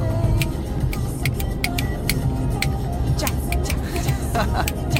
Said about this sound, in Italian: Sai che non sei l'unica a saper schioccare le dita oggi